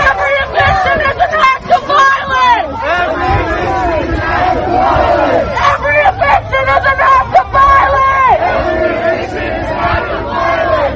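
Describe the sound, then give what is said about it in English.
Kansas City Tenants Union protesters loudly chant a slogan in unison while blocking eviction court, repeating the line twice over a constant crowd babble. “And that was the sound of the Kansas City Tenants Union blocking eviction court this week.”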